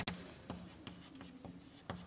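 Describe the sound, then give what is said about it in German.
Soft scratching of a calculation being written by hand, a series of short, quiet strokes separated by brief pauses, with no talk over them. “Ich schreibe mal 100 minus 50 ruhig hin.”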